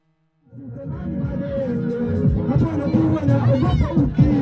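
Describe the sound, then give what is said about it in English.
Crowd chatter and hubbub at a rapping competition in Makambako, a small town in the Iringa region of Tanzania's southern highlands: many overlapping voices form a dense babble that starts abruptly and grows slightly louder. “let's listen to my report, which began at a rapping competition in a small town in the southern highlands of Tanzania.”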